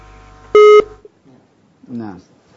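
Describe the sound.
A single short, loud electronic tone sounds as a telephone line drops during a call. It is a steady, buzzy beep, followed after a pause by a brief voice and faint line noise.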